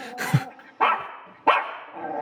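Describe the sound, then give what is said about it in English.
A female pet dog barks in a few sharp, separate barks spaced well apart. Each bark is loud and abrupt, with no talk over them. “What the hell was that? That's my pet dog.”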